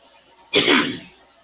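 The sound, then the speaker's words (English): A single harsh cough or throat-clear bursts out, loud and brief, with no talk around it and near silence before and after. “Sorry about that. Excuse the coughing.”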